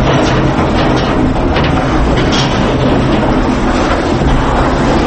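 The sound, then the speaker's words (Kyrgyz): A mine lift hoisting ore to the surface at a mercury mine, where up to 100 tonnes are raised daily, gives a loud, steady, dense rumbling roar with rattling, continuous throughout. “Бул лифт менен күнүнө жер үстүнө 100 тоннага чейин руда чыгарылып, металлургиялык заводко жөнөтүлөт.”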